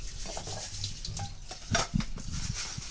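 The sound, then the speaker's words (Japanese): Rice being washed by hand in a bowl of water: steady grainy swishing and rubbing as the grains are stirred, with two brief, louder splashy clatters near the end. “まずお米を洗います。”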